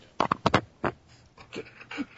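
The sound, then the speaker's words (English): A dog vocalizes at home with a few short, sharp, pitched bursts, followed by softer, lower grumbling sounds. “hold on a second. My dog has decided that now is the right time to come talk to me.”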